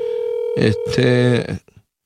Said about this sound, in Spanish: Estoy llamando al senador Eliezer Molina.